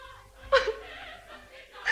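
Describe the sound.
A girl crying softly in a village meadow scene: a few breathy, whimpering sobs with quivering pitch, rising briefly louder and then trailing off into quiet breathing.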